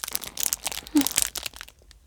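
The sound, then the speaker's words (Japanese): Biting into and chewing a fluffy, crisp melon bread: many crackly crunches and crumbly rustles that fade toward the end. “じゃあまず100円切りのふわさくメロンパンではいただきます。”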